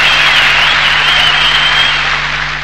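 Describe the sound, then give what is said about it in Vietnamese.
Applause after a song performance, a dense, even wash of clapping that holds at a steady, loud level throughout. “Hai bài hát Chu Hoa Kiệt đã biểu diễn xong, tiếng vỗ tay vang lên như sau”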